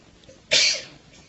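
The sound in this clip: A single sharp sneeze bursts out alone, a sudden breathy blast that fades within about half a second after a quiet lead-in.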